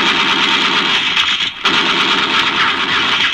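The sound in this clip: Rapid gunfire in a radio drama, a dense, unbroken volley that keeps firing for over three seconds with only a brief gap near the middle.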